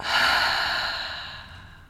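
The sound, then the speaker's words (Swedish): A single deep, slow breath, soft and airy, swelling quickly and then fading out over almost two seconds, with no talking. “Vi tar ett djupt andetag, hörni. Andas in genom näsan. Fyll upp bröstkorgen, magen med luft. Och andas ut genom munnen.”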